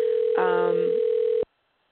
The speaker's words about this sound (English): Oh, yeah, I just heard a ring. Sorry, that was me. Okay, sorry. My phone died, and I have to call myself back in.